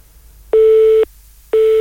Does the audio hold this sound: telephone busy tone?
yes